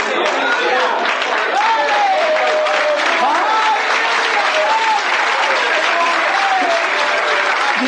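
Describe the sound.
Sustained applause from a crowd, a dense, steady wash of clapping that holds at a constant loud level throughout, with cheering voices mixed in.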